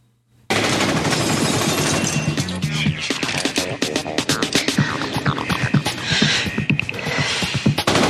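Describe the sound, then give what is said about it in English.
Gunfire as guards shoot back, a loud, dense barrage of rapid cracks and bursts that breaks in abruptly after a brief silence and continues without pause. “as the guards fire back and there's broken glass flying around.”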